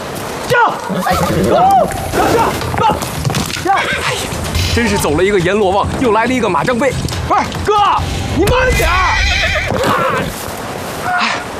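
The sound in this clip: Horse whinnying repeatedly while being ridden: a string of loud, wavering neighs rises and falls over the whole stretch, with people's voices mixed in.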